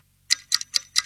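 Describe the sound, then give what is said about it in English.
Clock ticking: four sharp, bright ticks in a steady, quick rhythm, with nothing else heard. “Hear that? That's the sound of your valuable free time ticking away”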